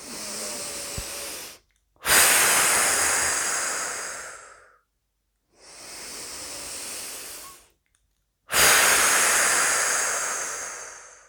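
Deep exhalations during a relaxation breathing exercise: long, airy whooshing breaths, each swelling and then tapering, separated by short silent pauses, with a softer breath at the start and no talk.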